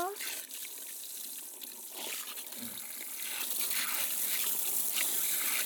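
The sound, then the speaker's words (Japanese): Hot water rinses shampoo out of hair, a soft and steady trickling, splashing hiss that is fairly faint and swells a little louder in the second half. “はーい、そろそろお湯で流しますよ。”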